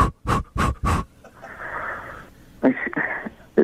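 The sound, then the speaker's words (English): A voice demonstrates quick, forceful panting breaths while coaching someone through pushing: a rapid run of short huffs, then a longer breathy exhale and a few more uneven breaths. “what I'm going to need you to do is take 5 quick breaths”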